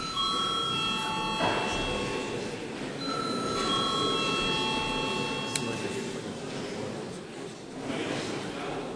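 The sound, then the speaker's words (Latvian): A bell is rung during a session of the Latvian parliament, giving steady, sustained electric tones that start and stop in staggered layers over a continuous low murmur of the chamber. “Lūdzu zvanu.”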